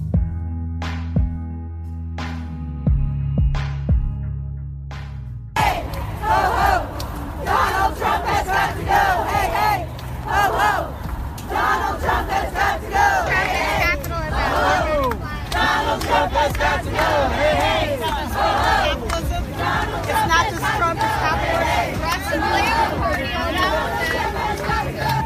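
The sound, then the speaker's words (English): Crowd chanting and shouting fills a New York City street during the Women's March. The roar is loud and sustained, with many voices rising together, and it follows a few seconds of tonal music. “calling in the middle of New York City's Women's March, as you can hear.”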